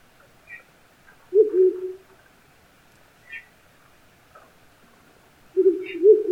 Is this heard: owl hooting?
yes